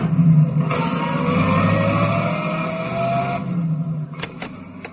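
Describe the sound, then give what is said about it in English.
A car sounds a steady, sustained tone and drives off, its engine loud for several seconds before the level drops, with a few sharp clicks near the end. “Okay, buddy, blow your horn and blow it loud. And now take me to the Navy Yard and step on it.”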